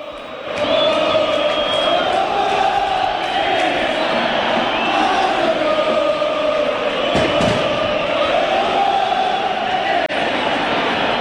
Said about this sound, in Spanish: ¿A qué se debe esta canción de los hinchas de Banfield?